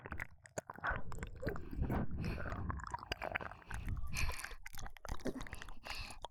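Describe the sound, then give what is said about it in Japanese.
Someone chews a local sweet snack, making faint, continuous soft crunching and squishing bites throughout. “私の里、地元のお菓子です。とても美味しいのでぜひ。いや、今食べてください。”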